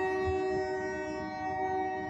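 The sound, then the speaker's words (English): A train passes with its horn blaring: a steady, loud, multi-toned blast held throughout over a low rolling rumble, with no voices. “See? The train comes along. I hit pause.”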